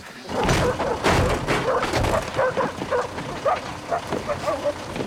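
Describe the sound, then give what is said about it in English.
Tracker dogs barking as soldiers set them on a scent, with many loud, overlapping barks, yips and whimpers over dull thumps, continuous throughout. “Soldiers get off a lorry with the tracker dogs. The dogs are off at the scent”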